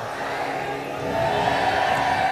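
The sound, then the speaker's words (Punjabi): A Sikh audience shouts the jaikara together, many voices rising in unison after a second and holding a loud, sustained roar to the end. “ਗੱਜ ਕੇ ਆਖੋ ਵਾਹਿਗੁਰੂ ਜੀ ਕਾ ਖਾਲਸਾ।”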